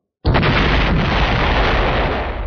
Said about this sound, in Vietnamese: Một tiếng nổ mạnh kinh thiên động địa truyền đến